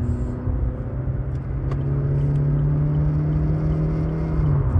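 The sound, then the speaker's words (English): Steady engine hum and low road rumble inside a moving car, a constant drone with a sustained low tone that fades out just before the end, with no talking. “I'm in my wife's car. And it's all fucking different.”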